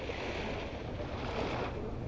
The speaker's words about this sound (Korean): 네, 강릉 경포 해수욕장에 나와 있습니다.